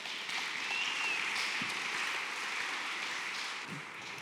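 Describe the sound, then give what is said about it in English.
Audience applause welcomes a speaker, a dense, even wash of clapping that holds steady for several seconds, with no voices over it. “So if you would give her a round and welcome her.”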